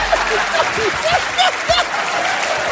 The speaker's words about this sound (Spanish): Fuerte aplauso para el hombre, por favor, un fuerte aplauso para él.